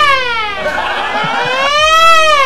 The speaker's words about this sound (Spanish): La sirena, güey. La sirena, cierto, es unos efectos de sonido impresionantes